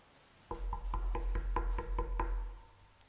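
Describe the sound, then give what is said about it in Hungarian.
Knocking is played for a Christmas-story guessing game: nine faint, evenly spaced knocks in a steady rhythm, with no voices. “Ez mi volt? Csak hogy tisztázzunk. Kopogás.”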